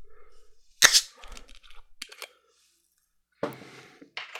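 A bottle of Fever-Tree Premium Ginger Beer being opened, with one sharp, loud crack as the cap comes off, then a few faint clicks and a short hissing burst after a pause.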